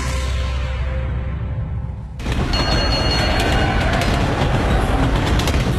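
A train running on rails makes a steady rumble that turns abruptly into a loud, dense roar of rolling wheels about two seconds in and continues without a break.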